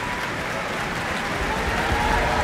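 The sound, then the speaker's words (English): Concert audience applause for a bassoonist after an orchestral performance, a full, steady wash of many hands clapping that swells slightly toward the end. “That applause picking out Ingrid Hagen, who was playing bassoon and representing the pompous magistrate”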